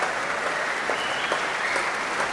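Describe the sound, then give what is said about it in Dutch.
Steady, dense applause from a concert audience for the orchestra's musicians after a Sunday afternoon classical concert, forming a continuous, even wash of clapping with no voices over it. “Een groot applaus nu ook voor al die verschillende muzici van het orkest.”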